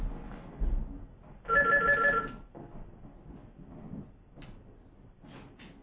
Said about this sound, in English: Now, hold on. I think we have a caller.